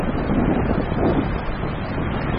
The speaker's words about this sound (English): The following day, it began to blow.